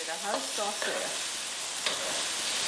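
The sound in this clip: Mud turtle stir-fries in a steady, bright sizzle, with the scrape and toss of stirring rising briefly over the constant hiss of frying.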